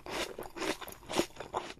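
Someone chews a bitten-off piece of apple in a quiet run of moist, rhythmic crunches about every quarter second, with no other sound around them.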